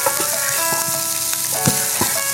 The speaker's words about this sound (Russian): Опять же, у нас остаются вещи, которые мы не можем дорезать, и мы благополучно отправляем их на сковородку.